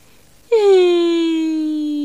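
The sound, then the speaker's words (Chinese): A child's crying wail bursts in sharply, then holds as one long, sustained voiced cry that sinks slightly in pitch and stays steady to the end. “我们几个小朋友都抱着哭了起来。”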